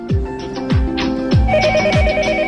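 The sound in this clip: A telephone ringing on a police emergency hotline, a repeating electronic ring pattern with about four falling chirps at an even pace, and a higher tone joining partway through.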